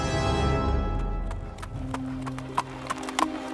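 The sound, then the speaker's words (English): Horse hooves clip-clop as a rider travels along a coast. A few sharp, irregular hoof clops sound over a steady low background. “The next day, the 19th, Captain Hale was riding along the coast, keeping his eyes peeled for redcoats and encampments.”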